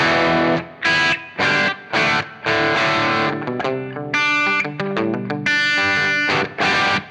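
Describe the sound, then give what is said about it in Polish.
Electric guitar played through heavy distortion with the gain turned fully up: loud, buzzing, saturated chords struck in a halting rhythm with short gaps, then a quicker run of notes, with no talking over it. “Gitara na razie rozkręcona na maksa. Przyciszę, żeby tutaj nic nie wywaliło nam z głośnością. No i gramy.”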